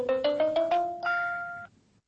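A text message notification tone on a phone plays five quick, bright notes that step upward in pitch, followed by one longer held tone that cuts off cleanly.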